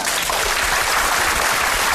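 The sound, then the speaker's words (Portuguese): Applause for a cello teacher at the close of a radio interview: dense, steady clapping holds at an even level from start to finish. “Palmas para ele.”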